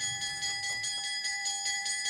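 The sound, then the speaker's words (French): A school bell rings for the end of classes with a steady, bright metallic ring that pulses rapidly and evenly throughout, loud and alone. “La cloche a sonné.”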